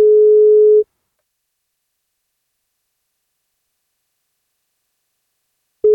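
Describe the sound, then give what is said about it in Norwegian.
Telephone ringing tone on a call to a listener: a steady mid-pitched beep lasting under a second, then a long stretch of silence, with the next beep starting just at the end. “Vi får ringe og høre om vi får tak I Kristoffer eller Sandra da.”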